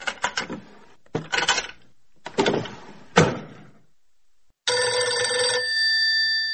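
Several door-like bangs and clatters arrive in a few bursts separated by short gaps, then a continuous, bright telephone ring sounds alone for about two seconds.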